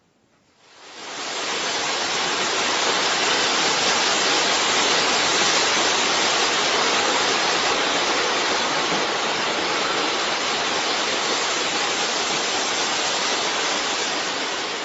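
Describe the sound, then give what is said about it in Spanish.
Waterfall thundering and flowing: a dense, steady roar that swells in within the first second, then holds loud and unbroken without variation to the end, with no voices. “Lo que suena es el tronar de la cascada hombre, que junto con su fluir interminable genera una escena casi hipnótica.”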